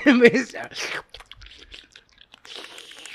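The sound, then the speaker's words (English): Someone eating pho, with wet chewing and crunchy mouth clicks following a brief bit of talk at the start. “That's me eating pho.”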